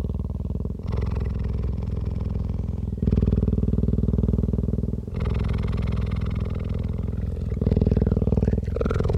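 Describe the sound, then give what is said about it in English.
A sleeping cheetah purrs in a deep, continuous rumble that swells and shifts with each slow breath in and out. The sound stays loud and steady through several breath cycles, with no voices. “It's the sound of a cheetah sleeping.”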